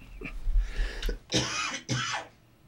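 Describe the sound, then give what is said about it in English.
A lingering cough from someone recovering after about three weeks of illness: a few harsh, raspy bursts, the last two strongest and most drawn out, with no speech between them. “I've been sick for about 3 weeks, and so I'm fine now except for the cough that just won't go away.”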